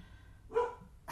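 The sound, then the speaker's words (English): A dog barks faintly in the background, giving two short barks about half a second apart, the second cut off. “And we'll try not to have any dogs in the way of this demonstration.”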